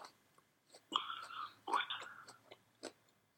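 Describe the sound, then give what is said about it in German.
Someone chews while finishing an apple, a few short, crisp crunching bites with quiet gaps between them. “Ich esse noch meinen Apfel zu Ende.”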